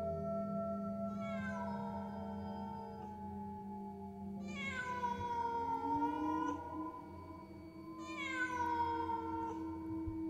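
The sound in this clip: A black cat lets out three drawn-out, plaintive meows, each wailing cry spaced a few seconds apart over a faint low background hum.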